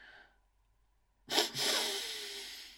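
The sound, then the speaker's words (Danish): Two nasal inhalations during a guided relaxation and muscle-tensing exercise: a short, sharp sniff followed at once by a longer, sustained breath in. Both are breathy and hissy and sound alone after silence. “Og tager nu en dobbelt indånding.”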